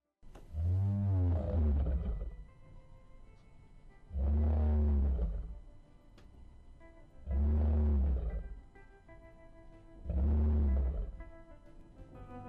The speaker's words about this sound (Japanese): なんかガルルルって言ってるような。 そうですよ。 ライオン。